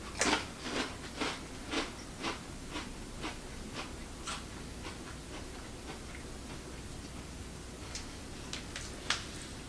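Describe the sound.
Faint crunching of someone biting and chewing bacon and cheddar potato skins, many crisp snaps in an uneven rhythm with no talking.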